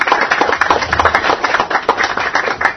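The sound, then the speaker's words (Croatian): Audience applause greeting the guests at a literary evening of poetry readings: dense, steady clapping from many hands, loud and unbroken from start to finish with no voices over it. “Ja vas molim da naše goste pozdravite jednim aplauzom.”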